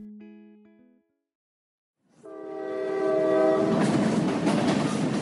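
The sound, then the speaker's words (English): A powerful train locomotive sounds its horn in a short, multi-note chord and then falls silent. It returns with a loud, sustained horn blast over a swelling rumble and the clatter of rolling cars. “Do you recognize that sound? That is the sound of a powerful train, also called a locomotive.”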